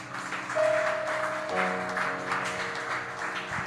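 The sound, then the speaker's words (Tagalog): An audience claps their hands during a church service, a steady, fairly soft wash of applause with sustained tones humming underneath. “Can you clap our hands to God for that?”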